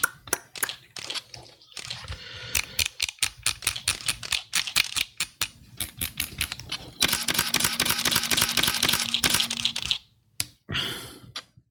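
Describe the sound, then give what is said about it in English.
A small 52 mm camera lens cap being handled, making many sharp, irregular clicks, snaps and rattles. A denser, continuous crackling stretch comes later, and brief quiet gaps break up the clicking. “My lens cap sounds like this. It's so like tiny. A little baby. Yeah, 52 millimeters.”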